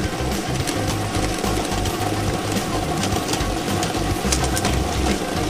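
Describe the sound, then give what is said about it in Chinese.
A lottery draw machine runs during a televised 3D number-game draw, giving a steady, continuous mechanical whir with dense rattling and clatter throughout, holding an even loudness from start to end with no voices. “摇奖机正式启动了”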